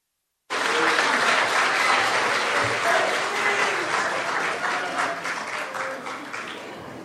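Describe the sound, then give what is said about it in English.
Enthusiastic audience applause bursts in suddenly after a brief silence for a young performer and stays as dense, even clapping, easing slightly toward the end. “Give it up. A lot of noise for Lil Shag.”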